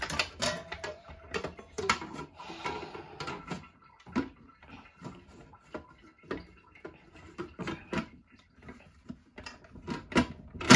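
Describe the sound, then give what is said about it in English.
Electric mixer beating a butter mixture to dissolve leftover lumps of butter, heard as irregular clattering and ticking knocks with brief whirring bursts, continuing throughout with no talk. “I'm gonna get this to mix again. I'm gonna put you guys on hold because there's no reason of you watching my mixer mix for like 3 to 5 minutes to get all this dissolved.”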